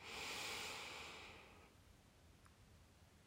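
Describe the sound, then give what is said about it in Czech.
Slow nasal inhale during a guided breathing exercise: one soft, airy breath that holds steady, then fades away into near silence. “Podržíme dech. Nádech nosem.”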